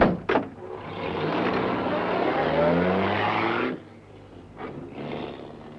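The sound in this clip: A taxi car's engine roars steadily for a few seconds as the vehicle moves, then drops abruptly to a quieter, lower rumble that swells slightly again near the end.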